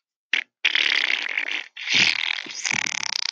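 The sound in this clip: A voice imitates a loud, liquid pooping sound: a short wet burst, a pause, then a long sputtering spray that breaks into rattling, bubbling pulses toward the end.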